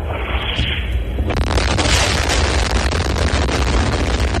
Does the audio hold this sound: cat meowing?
no

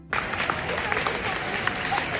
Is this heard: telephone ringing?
no

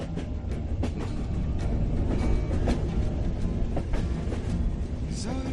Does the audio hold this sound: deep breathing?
no

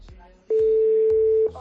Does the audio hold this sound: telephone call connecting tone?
yes

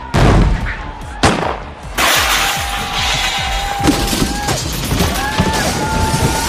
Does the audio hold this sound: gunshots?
yes

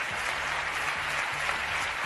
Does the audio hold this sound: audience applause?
yes

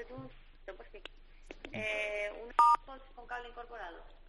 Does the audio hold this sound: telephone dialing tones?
yes

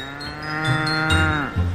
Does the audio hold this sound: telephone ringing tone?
no

